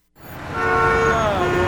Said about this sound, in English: Do you hear that? That's the sound of a city that's back in business.